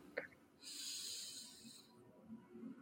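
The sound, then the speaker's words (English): A single deep breath drawn in during a guided breathing ritual, heard as a soft, airy hiss lasting just over a second, faint and alone. “So we can start taking a deep inhale into the body”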